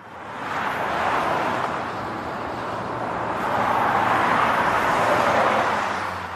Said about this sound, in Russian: Мимо проносились машины, спешившие по своим делам.